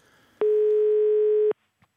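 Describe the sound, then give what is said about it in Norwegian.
A telephone ringback tone sounds during a call to a funeral home: one steady, loud electronic beep lasting about a second, then a brief faint click. “Så har vi tatt noen telefoner, og vi ringte til et begravelsesbyrå for å høre liksom hvordan, om vi kan få noen bra pris da”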